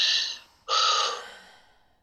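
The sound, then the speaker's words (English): A big deep breath taken during a guided tapping exercise: two breathy rushes of air, the second longer and slowly fading away, with no talk. “Give a big deep breath.”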